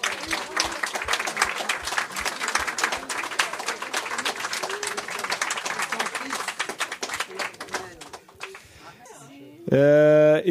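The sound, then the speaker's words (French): An audience applauds with dense, sustained clapping that fills most of the stretch before thinning out, after which a voice speaks briefly. “Mais je crois qu'on pourrait faire un grand bravo pour Andrea. Allez.”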